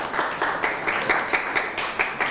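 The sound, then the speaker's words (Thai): Applause from a classroom audience clapping for a classmate who has just finished a presentation: a steady, dense patter of many hands with regular pulses, with no talk over it. “เอาละครับปรบมือให้กับเพื่อนหน่อยครับ”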